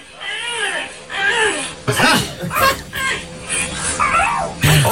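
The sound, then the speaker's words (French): A parrot imitates household sounds, giving a string of loud warbling, squealing calls that rise and fall in several bursts, with a sharper squawk near the end. “C'est comme ça qu'il dit bonjour. C'est génial, génial ce son. C'est effectivement un perroquet.”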